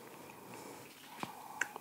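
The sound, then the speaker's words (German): Biting and chewing an apple: a few faint, crisp crunches close together near the end, heard alone against a quiet background. “Darum esse ich jetzt auch Apfel, statt was zu trinken.”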